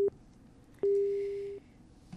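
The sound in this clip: A telephone busy tone after a call is cut off: a steady mid-pitched beep, first a brief clipped burst, then one lasting about three-quarters of a second, and another just starting at the end, with silent gaps between.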